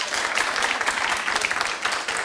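Audience at a comedy show clapping: a dense, steady wash of many hands that stays fairly even and loud for the whole short stretch.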